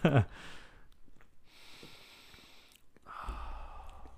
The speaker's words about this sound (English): Gotta get the sniff. It's a sour, so it's a different like aroma, you know?